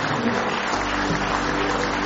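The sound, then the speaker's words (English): A church audience claps hands in praise, with steady, continuous applause over music. “Give Him one more hand clap of praise.”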